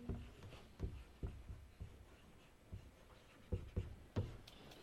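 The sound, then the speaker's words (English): Handwriting with a pen: faint, scratchy strokes and soft taps come in irregular bursts, quiet and with no talk over them. “I'm going to write the whole thing out.”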